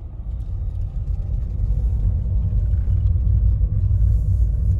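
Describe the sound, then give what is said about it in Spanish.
A car is driven through a town in the Czech Republic. A steady, low engine and road rumble grows slightly louder, with no voices. “Ahora yo voy manejando.”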